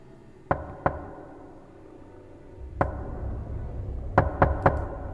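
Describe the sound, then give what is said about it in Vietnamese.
Sharp, distinct knocks strike a door, six in all: a quick pair, a single knock after a pause, then a rapid run of three, each crisp and loud over faint background hiss. “Tiến lại gần cánh cửa, tiếng gõ cửa lại vang lên, nhưng lần này rất đanh và rành mạch.”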